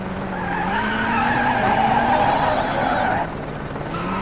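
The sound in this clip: A rally car skids on hard braking into a hairpin left in a rally video game, a loud, steady engine-and-tyre roar that holds for about three seconds before dropping slightly in level.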